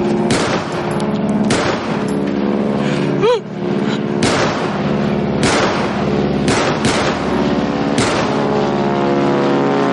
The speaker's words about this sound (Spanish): Alfonso saca su pistola y dispara al avión